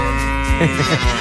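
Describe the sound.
A young she-goat that has not yet been milked gives one short bleat, a reedy harmonic call that breaks into a rapid quaver toward its end.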